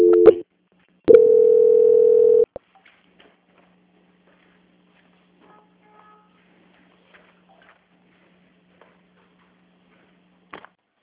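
Telephone call transfer tone: a short steady beep, then a longer held beep of the same pitch. Near silence with a few faint clicks follows.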